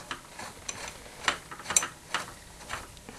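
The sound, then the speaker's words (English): Ratcheting mechanical clicks from a bolt being screwed in, a series of sharp, irregularly spaced ticks and clacks at moderate level, with no talk over them. “We have to look down and make sure everything's aligned, and there it is. Alright, and now screw it in.”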